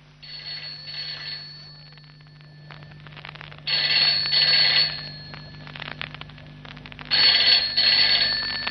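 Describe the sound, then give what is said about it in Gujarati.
A telephone rings in three bursts of bright, rapid, trilling bell tone separated by short pauses, over a low, steady hum. “Sushi, કિશોરનો phone હતો.”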